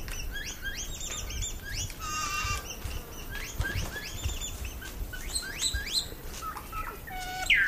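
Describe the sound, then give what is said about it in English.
A male and female saddleback pair make quiet fluting calls to each other: many soft whistled notes, mostly short upward sweeps, repeated in loose clusters over a low background rumble. “They then have sexually dimorphic quiet calls, and these are beautiful, quiet little fluting calls that males and females will do as part of the pair bond, essentially.”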